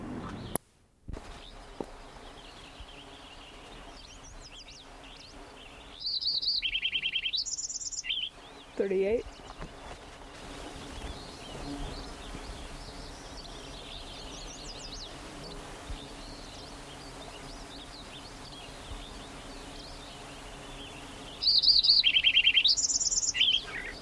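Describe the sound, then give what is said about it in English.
Lincoln's sparrow song, two bright, high-pitched bursts of warbling trills several seconds apart, standing out over a faint, steady low background hum. “Lincoln Sparrow number 1, continued.”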